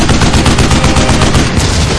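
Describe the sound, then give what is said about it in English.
Loud, continuous machine-gun fire from an aircraft strafing the ground: a dense, rapid rattle of shots running unbroken throughout. “The animals simply collapsed as the hot lead from the Angel stitched across them in crimson fury.”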